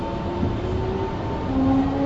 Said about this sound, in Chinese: 欢迎乘坐一号线，本次列车开往新庄，